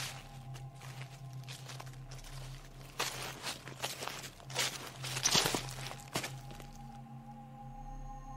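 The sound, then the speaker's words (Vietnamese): Rustling footsteps of someone walking behind, faint and irregular, with a few louder scuffing steps in the middle, over a steady low hum. “Bà dừng lại, thì lại không nghe tiếng gì, mà bà cất bước đi tiếp thì cứ nghe soàn soạt soàn soạt.”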